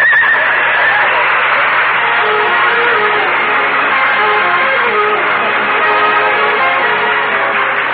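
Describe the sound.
A horse pulling a sleigh whinnies loudly, a long, strong neigh that carries steadily from start to finish.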